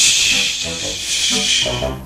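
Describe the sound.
A voice imitates fish sizzling in a frying pan with a continuous loud, breathy hiss. Some voiced tones show underneath, and the hiss runs without a break.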